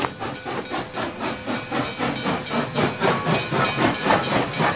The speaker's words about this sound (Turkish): Ay, bu ne bu? Ay, trenmiş. Ay tanrım, bir türlü alışamadım şu tren sesine.